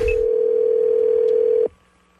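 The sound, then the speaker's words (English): Telephone line tone on a call to a restaurant: a steady single-pitch tone holds for about one and a half seconds, then cuts off abruptly with a click, leaving faint line hiss. “And he is calling this restaurant after I know that they're closed and trying to order food.”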